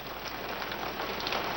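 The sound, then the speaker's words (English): Rain falls in a steady, dense patter of many fine drops, a continuous hissing splatter that holds at a moderate level throughout. “Raindrops splatter on his face and suit.”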